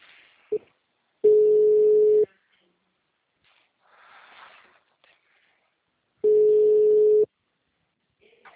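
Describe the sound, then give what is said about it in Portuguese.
Telephone line tone after a call drops: two steady mid-pitched tones, each about one second long, separated by a long gap, with faint scattered noises between them. “a ligação caiu”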